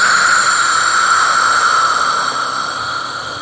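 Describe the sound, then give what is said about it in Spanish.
A voice exhales a long, continuous Spanish 'j' (jota) sound as a healing sound for the spleen, pancreas and stomach. It makes a loud, steady, breathy hiss that eases slightly toward the end. “Y ese sonido es una jota continua y suena así. Voy a tomar aire y al exhalar,”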